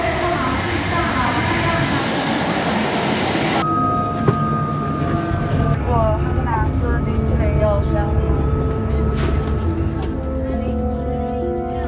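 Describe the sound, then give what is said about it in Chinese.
A train arrives at a station with a continuous loud rumble and rushing noise. After a few seconds the sound shifts and higher sustained tones appear over it. “列车们请注意，列车正在进站。”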